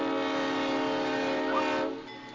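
A train sounds a sustained, harmonic horn-like tone that holds steady and loud, then drops slightly in level near the end.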